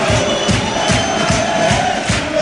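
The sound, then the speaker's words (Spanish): Football fans cheer and chant in a stadium with flares burning, a loud dense crowd roar pulsing in a steady rhythm as supporters jump together. “Y sigue animando la afición del Recre, sigue animando la afición del San Roque de Lepe, todos saltando, todos alegres, todos contentos.”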